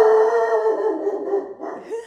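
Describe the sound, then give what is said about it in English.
A dog howls in a long, wavering, mid-pitched cry that gradually weakens. A second, shorter howl rises near the end. No other sounds accompany the howling. “That's Kendra's dog, Jack. He's got a lot to say. He wanted to be interviewed for the podcast.”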